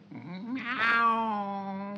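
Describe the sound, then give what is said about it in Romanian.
A single long cat meow, loud and alone, starting low and strained, swelling into a bright wail and then holding a steady, drawn-out tone to the end. “Da, nu mi-închipuiam că puteți lua chiar și chipul unei pisici.”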